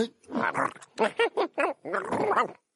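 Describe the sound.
Growling and yelping from a cartoon dog: a string of several short, pitched bursts with wavering, whiny pitch and a rough edge, loud and alone, ending in silence.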